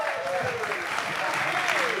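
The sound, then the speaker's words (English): Dense, continuous applause from an audience at an event welcoming a speaker to the front, a steady roar of many hands clapping throughout, with faint voices mixed in. “And so can we put our hands together for him as he comes up and shares with us?”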